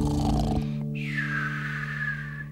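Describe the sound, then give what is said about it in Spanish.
A voice imitates snoring in a children's song, over sustained musical tones: after a brief musical passage, a long, thin whistling exhale holds steady and drifts slightly lower in pitch. “Ahora vamos a roncar.”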